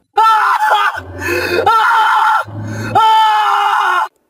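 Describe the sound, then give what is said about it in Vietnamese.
A man screams in terror, loud, strained harmonic cries that break off and return, with a softer, lower stretch between two strong bursts. “Lão trợn mắt hét lên thất thanh.”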